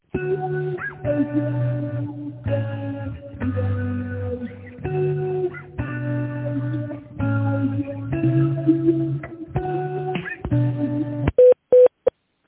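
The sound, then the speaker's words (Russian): Telephone line tones play while a call connects, as a series of clear electronic tonal phrases that shift in pitch, followed by a few short, rapid beeps at the end. “Please wait while we connect your call.”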